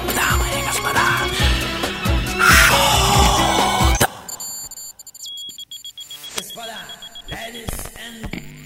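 An electronic alarm signal sounding after a louder passage of mixed sound: thin, high-pitched beeping tones, joined near the end by a few lower tonal bursts.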